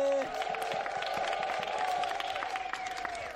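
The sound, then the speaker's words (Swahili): A church audience clapping and ululating during a Swahili-language service: quick, scattered claps under a sustained, high trilling ululation, all fairly faint. “Haya makofi na vigelegele.”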